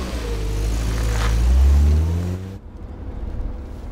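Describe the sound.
A car accelerating: a loud, low engine drone with harmonics climbing steadily in pitch, then cutting off abruptly into quieter rumbling noise.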